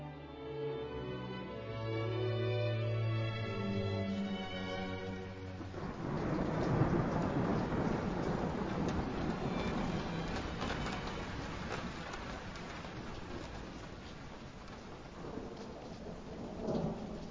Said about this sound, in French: mais quand il pleut, c'est un déluge. De grosses gouttes de pluie frappent le sol avec un crépitement âpre.